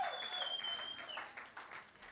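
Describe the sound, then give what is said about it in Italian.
Applause from a concert audience, a faint, dense patter of clapping that carries on steadily for about two seconds, with a high whistle cutting through near the start. “Appena parli di droga tutti applaudono, è così”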